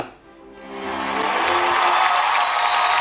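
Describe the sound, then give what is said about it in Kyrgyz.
Audience applause swells up as a tonal sound fades out, rising within about a second from quiet to a loud, dense, sustained roar of clapping. “Мындай кол чабуулар менен жооп беребиз.”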